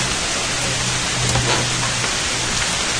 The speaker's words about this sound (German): Hier regnet es sowieso nur zweimal. Einmal auf die Blätter und dann von den Blättern. Also es wird noch ein bisschen dauern, bis dieses Rauschen weg ist.